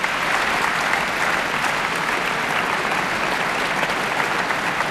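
Dense applause from the concert audience at the Philharmonie de Paris for cellist Truls Mørk after a concerto with the Orchestre de Paris. The clapping is loud and sustained, an even, unbroken wash of hands with no pauses.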